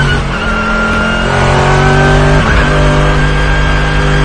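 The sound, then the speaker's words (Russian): A Mercedes GT race car overtakes a Logan during a 24-hour endurance race, with loud, sustained engine roar from racing cars. The tone is steady and droning, with a brief pitch shift midway and no speech. “Mercedes GT пытается его обогнать.”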